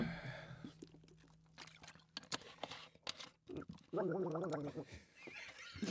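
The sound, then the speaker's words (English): A person gargling, a bubbling, throaty warble lasting about half a second, preceded by scattered clicks, breaths and soft mouth noises. “Including you gargling?”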